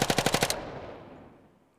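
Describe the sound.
A machine gun fires one short, rapid burst of loud shots, then a long reverberant tail fades out slowly, with no voices.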